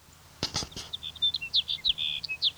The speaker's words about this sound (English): Here's sage sparrow number two.